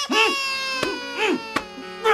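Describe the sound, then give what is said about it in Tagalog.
A child cries in repeated wailing bursts, each cry rising and falling in pitch with a strained, tonal quality, broken by short gasping pauses and a couple of sharp clicks. “Ba't iyak ka ba ng iyak, ha?”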